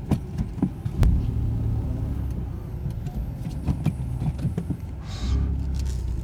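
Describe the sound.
A car pulls out of a parking space, giving a low, steady engine rumble and hum that runs throughout.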